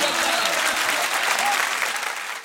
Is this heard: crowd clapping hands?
yes